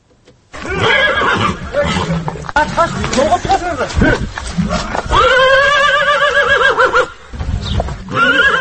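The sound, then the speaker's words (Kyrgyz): A pacer horse, a ten-year-old stud-farm racer, whinnies in several loud, wavering neighs with pauses between them, alongside stretches of snorting and breathy sounds. “Бул Орто Азия боюнча алдына бир да жоргону чыгарбаган айтылуу патрон жоргосунун үнү.”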